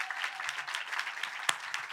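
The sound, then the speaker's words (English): Audience applause at a political gathering in St. Louis: a steady, dense patter of many hands clapping at moderate volume, with one sharper clap standing out near the end. “So give yourselves a round of applause.”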